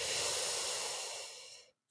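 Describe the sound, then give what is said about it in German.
A single deep breath drawn in during a guided relaxation exercise: a soft, airy hiss that lasts under two seconds, gradually tapers off and ends abruptly, faint and alone. “atme einmal ganz tief diese Ressource mit der Farbe ein.”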